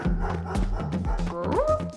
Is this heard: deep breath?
no